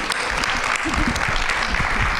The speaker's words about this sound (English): Can we give a round of applause?